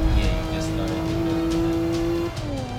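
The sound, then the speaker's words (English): Race cars driving in a racing video game, a steady, loud engine drone with a bright held tone that drops in pitch near the end. “It's like, these cars seem unrealistically slow”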